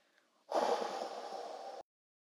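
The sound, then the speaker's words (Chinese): A slow exhale after a deep breath during a children's meditation: one steady, breathy push of air lasting just over a second that stops abruptly, alone against near silence. “我们再来一次，深深的吸气。再慢慢的吐气。”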